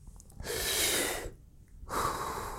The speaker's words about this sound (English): Okay, so now I'm taking deep breaths to trick my nervous system into thinking it's safe